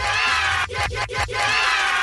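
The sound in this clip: Remixed crowd cheering sound effect: a loud, dense roar of many voices, with a few brief shouted bursts near the middle.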